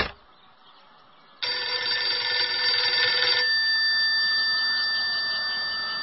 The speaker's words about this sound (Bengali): কে যে ল্যান্ডফোনে ফোন দিচ্ছে তখন থেকে?